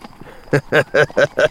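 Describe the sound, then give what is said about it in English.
Hoofbeats of horses ridden through the night, five loud, evenly spaced clip-clop beats in a steady trotting rhythm. “Three-Fingered Manning and Waco Jones were riding through the night, their way lighted by a very bright full moon.”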